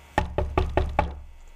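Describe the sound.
Five evenly spaced knocks on an office door, crisp and moderately loud, in a steady rhythm with no voices.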